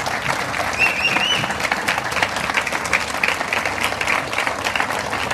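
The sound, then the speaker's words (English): An audience applauds the mayor with a dense, steady clatter of many hands clapping that holds at an even level throughout. “It's a great privilege, and it's my pleasure. Just give the mayor a hand, please.”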